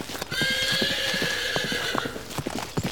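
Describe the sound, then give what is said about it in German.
Horses clip-clopping, many quick hoof knocks throughout, while a long, high whinny carries over the first two seconds. “Oh, schaut mal. Hier gibt es ja sogar Pferde.”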